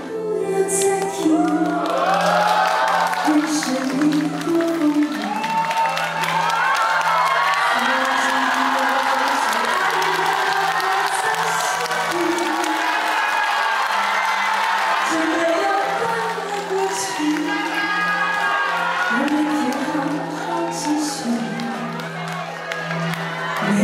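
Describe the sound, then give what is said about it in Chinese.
Concert fans scream and cheer loudly and steadily throughout as a surprise guest singer joins for an on-stage duet at a celebration event, with high shrieks and whoops layered over a constant crowd roar. “令全场歌迷尖叫声不断。”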